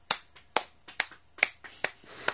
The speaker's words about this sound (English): Let's give her a big applause for coming